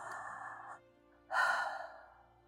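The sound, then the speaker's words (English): A strong breath drawn into the belly during a guided relaxation exercise, heard as two soft, airy breath sounds. A short pause separates them, and the second is louder and fuller. “Take a nice strong breath into your belly.”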